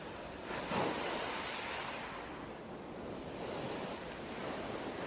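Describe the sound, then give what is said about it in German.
Ocean surf washes in a steady broad rush at a beach, with wind noise mixed in. The level swells briefly near the start and then holds fairly even. No distinct calls stand out above the surf. “Du hörst das Rauschen der Wellen und das Kreischen entfernter Möwen.”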